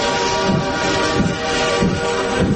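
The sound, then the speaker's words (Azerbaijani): A train sound effect plays a continuous, loud rolling rumble of a moving train, with rhythmic wheel clacks recurring evenly about every three quarters of a second. “Seçki qatarı 101.7 FM stansiyasından yola düşür.”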